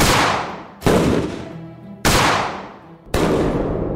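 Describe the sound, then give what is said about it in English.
Shotgun gunfire as two sons armed with shotguns burst into a room and open fire: four loud, sharp blasts, each ringing out and fading before the next, spaced unevenly, with no voices. “their two sons burst into the room, armed with shotguns, and opened fire.”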